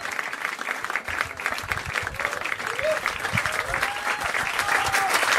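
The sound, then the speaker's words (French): Applause from a jazz club audience at the Duc des Lombards in Paris after pianist Gerald Clayton's first-night set. Many hands clap in a dense, steady, loud ovation that swells slightly near the end. “Le pianiste Gerald Clayton sous euh, l'ovation du public du Duc des Lombards pour cette première soirée ici euh, à Paris.”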